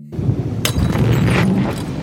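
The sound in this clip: Flames burst up from a fire conjured by a spell: a sudden sharp whoosh of flame cuts through a continuous low rumbling roar, which keeps burning loudly for the rest of the moment.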